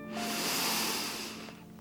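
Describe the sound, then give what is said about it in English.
A single deep inhale during a guided breathing meditation, an airy hiss that swells and fades over about two seconds, with a faint steady low tone underneath. “taking a deep breath in”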